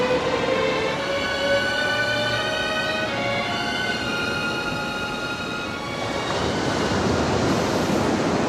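Ocean waves breaking on a beach with sharp reefs, a steady, loud roar of surf that washes on continuously with no voices.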